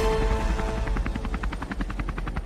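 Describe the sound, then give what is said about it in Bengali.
A helicopter circles and comes in to land, its rotor beating in rapid, even thumps over a loud, low engine roar that continues throughout. “হেলিকপ্টারটা কয়েক চক্কর ঘুরে নামলো বেশ খানিকটা দূরে”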